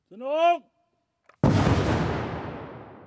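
A quarry blasting charge is detonated with a crank-driven blasting machine. A short vocal call and a faint click come first, then a single loud, deep blast that rumbles and slowly fades away.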